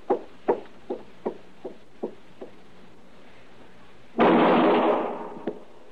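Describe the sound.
Gunshots in a radio drama western: seven evenly spaced sharp pops that fade step by step, then a sudden, loud, sustained burst of noise that tails off, followed by one more faint pop.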